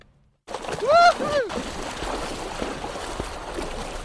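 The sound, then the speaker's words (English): Splashing water as people go swimming in a Cornwall river, a continuous wash of churning noise with a short voiced whoop near the start. “Well, should we have a swim? I think we should. It won't be that cold.”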